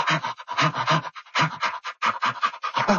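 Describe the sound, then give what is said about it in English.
An animal does play panting with its mouth wide open, making short, breathy huffs in quick rhythmic bursts, many in a row, fairly soft and with no talk. “they do that by opening their mouth very widely and making kind of short breathing sounds that sound like”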